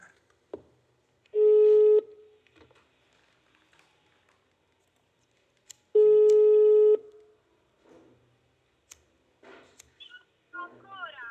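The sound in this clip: A telephone rings unanswered as two steady, mid-pitched ringback tones, each lasting about a second and spaced roughly four seconds apart. Faint clicks and soft voices occur between the tones and at the end.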